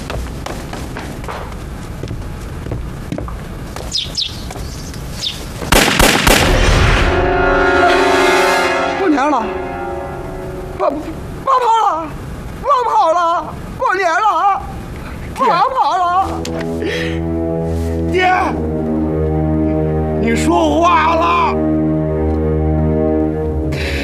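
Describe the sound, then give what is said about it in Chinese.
Gunshots fired in a courtyard: a few sharp, heavy blasts near the start, followed by sustained, resonant tonal music. “到院里给我打几枪。”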